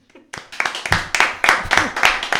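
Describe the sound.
Hand clapping at a reading event for a 40th-anniversary marathon: a brisk, steady run of many loud, sharp claps, evenly spaced and sounding clearly.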